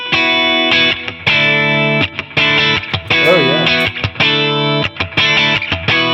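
Clean, springy electric guitar chords played through a compressor effect, strummed repeatedly in loud, sustained bursts with brief gaps, one passage showing a wobbling bent note.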